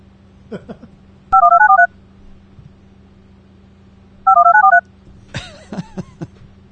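Telephone keypad dialing tones play as two quick bursts of rapid beeping digits, separated by a few seconds of low hum, with brief faint sounds near the start and end.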